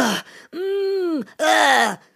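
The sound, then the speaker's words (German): A voice imitates the groaning noises of standing up stiffly, as after gardening: three drawn-out, voiced groans, the middle one long and steady before sagging at its end, the last one breathier and falling. “Aber mein Körper braucht jetzt Stöhnen beim Aufstehen.”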